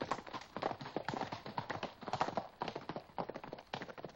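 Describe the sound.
Horses gallop toward the listener as riders carrying lanterns approach, producing a quick, irregular clatter of many hoofbeats, a fairly quiet, steady stream of hooves with no voices.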